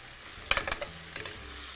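Stirring coarsely cut chiffonade basil into cavatelli pasta in a sizzling pan: a quick cluster of scraping strokes, then a few softer ones, over a low, steady frying hiss.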